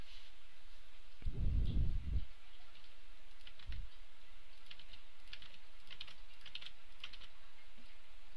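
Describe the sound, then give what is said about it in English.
Typing on a computer keyboard while entering text into a web page footer produces many light, rapid clicks in irregular bursts, fairly quiet and with no voices. “So let's just go ahead and type a few things in here.”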